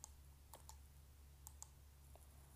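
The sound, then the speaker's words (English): Computer mouse clicks: a handful of sharp, light ticks, spaced irregularly and some in quick pairs, over a faint steady low hum. “Okay, so click left click and”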